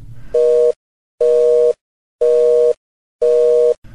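Telephone busy signal: four loud, steady beeps at one pitch, evenly spaced with silent gaps between them.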